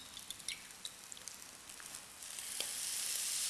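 Eggs frying in a pan give off a steady hissing sizzle dotted with small crackling pops, the sizzle swelling louder and fuller over the last second.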